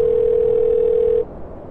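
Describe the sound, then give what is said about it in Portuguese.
A telephone ringback tone from an outgoing call to a mobile phone: one steady, clear mid-pitched tone held for just over a second, then cut off, leaving a soft hiss. No voices. “Eu quero ligar. Tá chamando.”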